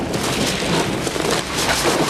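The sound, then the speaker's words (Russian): Heavy rain pouring at nightfall by a river where logs roll into the water: a dense, loud, unbroken hiss of falling drops, steady throughout with no talk. “Стемнело, льет дождь.”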